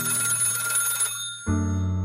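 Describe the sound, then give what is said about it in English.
A telephone ringing: a loud, steady electronic ringtone with bright tonal harmonics. It breaks off briefly partway through, then resumes, with no voices. “That's fine. Was that my phone or yours?”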